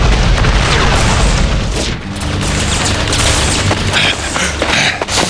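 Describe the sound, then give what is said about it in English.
Energy weapons firing in a tunnel: a dense, continuous barrage of booming blasts and crackling bursts, loud and sustained throughout, with no voices. “They opened fire on her with energy weapons.”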